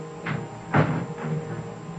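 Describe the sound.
A door is shut and locked with a key, giving three soft, dull clunks spaced about half a second apart, faint and muffled.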